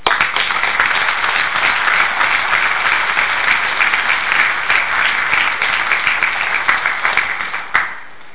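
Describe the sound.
Audience applause welcoming the speaker at a speakers group meeting: steady, sustained clapping from many hands for about seven and a half seconds, tapering off with a last clap at the end.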